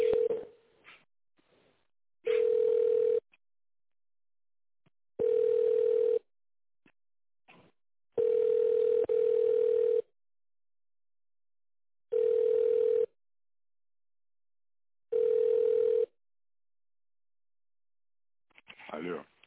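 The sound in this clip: A telephone ringback tone plays while a call is being transferred. Five steady mid-pitched tone bursts repeat about every three seconds, with silence between them and faint voice sounds at the start and end.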